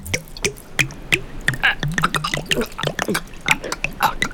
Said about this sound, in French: Vous pouvez pas m'en verser dans le bec? Bah, bien sûr.